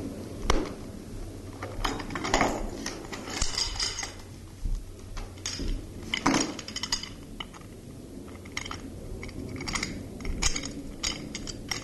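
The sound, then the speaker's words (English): Handling noises while a tape recorder is set up: many irregular clicks, ticks and light clunks of plastic and metal, some louder knocks among softer fiddling. “And I'll just set up a tape recorder first.”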